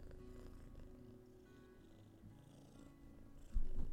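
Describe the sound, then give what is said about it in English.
A pet cat purrs at home in a faint, steady, low rumbling drone, growing noticeably louder in the final moment. “I hope you can hear him purring.”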